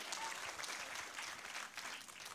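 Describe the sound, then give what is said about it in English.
A church audience applauding the Lord after a prayer, a faint but continuous wash of many hands clapping with an even, unbroken texture from start to finish. “Let's applaud the Lord, would you? Hallelujah.”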